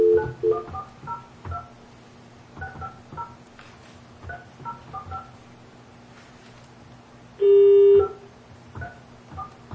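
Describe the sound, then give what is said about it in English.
Telephone keypad tones as a call to Omaha, Nebraska is dialed on a speakerphone: many short beeps in quick clusters, followed near the end by one longer, louder steady tone. “We'll call in Omaha, Nebraska. So here we go.”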